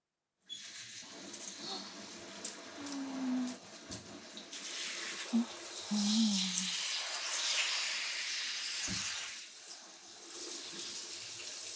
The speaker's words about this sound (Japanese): じゃあこれも軽く流して。